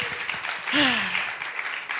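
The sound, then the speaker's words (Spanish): Audience applause at a live concert by an ensemble playing metal instruments, a brief, fairly soft wash of steady clapping. “El público se hace presente con su aplauso.”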